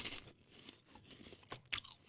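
Crunchy cheese balls flavored with basil are chewed in a string of dry, crackling crunches of varying strength. One sharp bite near the end stands out, all faint and without talk.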